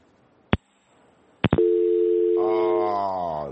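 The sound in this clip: Dial tone after a dropped phone call: two sharp clicks, then a steady continuous tone, with a richer, buzzier tone layering on top partway through and holding to the end.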